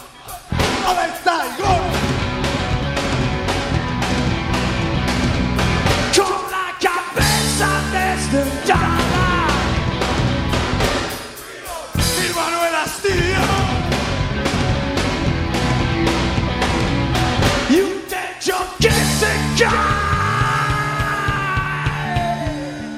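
A rock band plays a raw, loud live set in a club, with dense distorted instruments, a driving drum beat and shouted vocals. The sound stays loud throughout, with a few brief drops between sections.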